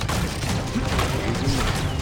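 Video-game gunfire striking the player's character: a dense, loud, continuous barrage of overlapping shots and impacts with no clear pauses.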